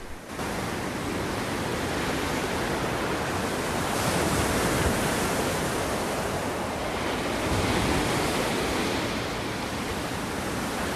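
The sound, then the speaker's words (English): Ocean waves churn and break on a rocky headland, heard as a continuous loud roar of surf with a hissing, wind-like wash. The sound swells slightly a couple of times. “her small figure dwarfed by the ocean, which churns and breaks, breaks and churns.”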